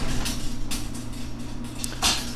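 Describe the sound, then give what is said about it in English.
A garage door is opened, producing a steady, loud mechanical rumble over a low hum, with a few brighter scraping bursts along the way and no talk. “Let's open the garage door.”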